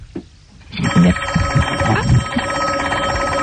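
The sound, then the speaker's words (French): A telephone rings from a call on the direct line, a continuous warbling electronic ring that starts abruptly and carries on steadily over a busy low-pitched background. “quelqu'un qui a appelé sur la ligne directe.”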